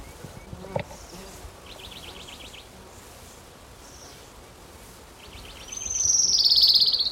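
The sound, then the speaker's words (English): An orange-crowned warbler sings high, thin trilled phrases. A quieter series of chirps comes first, and a louder, sustained trill follows near the end over a faint, steady background hiss. “Orange Crown Warbler, number two.”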